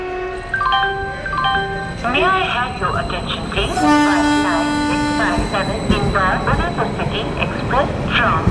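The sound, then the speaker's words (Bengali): A train pulls away from a platform, loud sustained horn tones and shifting whistle-like blasts sounding over a continuous low rumble of rolling wheels and carriages. “Train ছাড়ল।”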